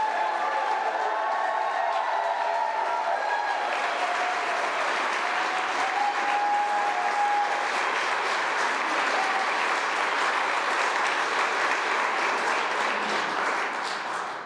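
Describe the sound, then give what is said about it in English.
A rally crowd supporting Medicaid expansion in Kansas applauds and cheers in a sustained wash of clapping and shouts. The noise stays loud and even, then trails off at the very end. “If you're at this place to support Medicaid expansion, make some noise.”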